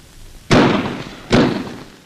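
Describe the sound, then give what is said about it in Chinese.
A fuse charge detonates at barbed wire on an enemy line at night. Two sharp, loud bursts arrive about a second apart, each hitting suddenly and then decaying into a rough rumble. “导火索很快被引爆了”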